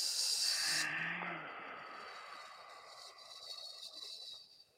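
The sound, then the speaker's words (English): A long, slow exhale during a breathing exercise: a soft, breathy hiss that is strongest at the start, then tapers gradually and stays faint for several seconds. “And breathe out long and slow.”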